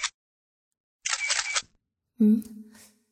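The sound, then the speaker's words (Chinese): A mobile phone camera shutter fires, giving sharp, noisy bursts separated by silence. A brief tonal sound follows at the end. “好像是拍照的声音。儿子蹲在地上捡蒜瓣，怎么还用手机拍照啊？”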